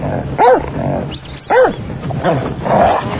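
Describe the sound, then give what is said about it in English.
A dog barks and yelps a few times in sharp, high, arched calls, two strong ones with fainter ones between them. “Control that dog, well. Get that dog. Get the dog off of you.”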